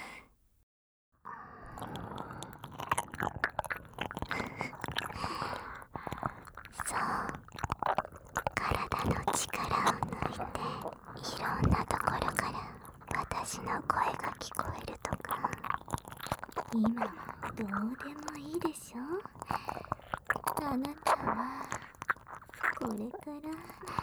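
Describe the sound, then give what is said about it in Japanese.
Wet tongue-licking and mouth sounds on both ears at once in binaural ASMR, dense and continuous after a brief silent start, with soft squishy smacks and clicks throughout. “お兄さんのかわいいお耳を、両側から同時に、私の長い舌で、ぶちおかしてあげます。”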